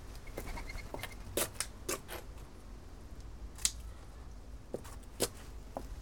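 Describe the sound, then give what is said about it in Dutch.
Scissors snip off the leftover stem of a garden plant, making a series of faint, sharp clicking cuts. The cuts are spaced irregularly over quiet background noise. “Eerst knippen we het restant van de stengel eraf.”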